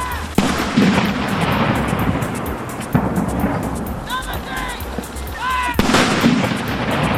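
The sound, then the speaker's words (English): Ceremonial cannon of a 41-gun salute in London's Hyde Park, fired for the Queen's 91st birthday, boom out in a few heavy, widely spaced blasts over steady background noise. “And 41 gun salutes have been fired in London's Hyde Park to celebrate the Queen's 91st”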